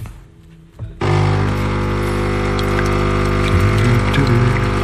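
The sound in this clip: Coffee machine pump starting up as coffee is made: after a quieter moment comes a sudden, loud, steady droning buzz with a strong low hum that runs on without pause.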